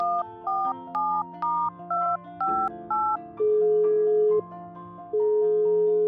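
A telephone being dialed and then ringing: a quick series of short beeps at varying pitches, followed by two long, loud ringing tones separated by a brief gap.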